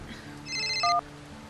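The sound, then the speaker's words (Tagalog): A phone ringtone announces an incoming call with a brief run of bright electronic notes, then a louder, lower tone, fairly faint overall and ending after under a second. “Tumatawag na nga si Ate Camille.”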